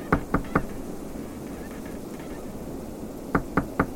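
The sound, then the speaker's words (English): Knuckles knock on the door of an ice house on a snowy frozen lake: a quick series of sharp raps, a long pause over low steady background noise, then another series of raps. “I walked through the snow and approached Frank Jones' ice house and knocked on the door.”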